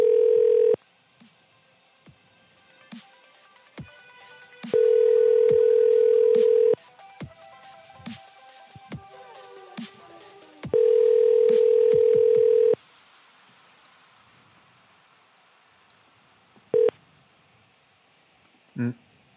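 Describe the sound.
Telephone dial tone and touch-tone keypad dialing while checking voicemail: three long, steady tone stretches alternate with quick runs of keypad beeps, then two isolated short beeps sound near the end.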